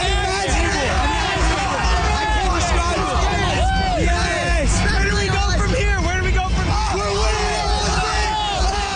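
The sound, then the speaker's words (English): Canadian soccer fans celebrating a goal at the FIFA Men's World Cup: a dense, loud crowd roar of cheering, shouting and whooping that runs continuously throughout. “So here's the sound of some of the fans who were celebrating that moment yesterday.”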